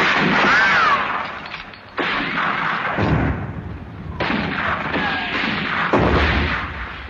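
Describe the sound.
Cannon fire opens a battle as several heavy blasts in succession, each one bursting out and rolling into a long, loud, rumbling roar that overlaps the next.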